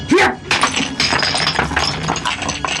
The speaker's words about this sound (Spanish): Con el impacto, los mosaicos se quiebran.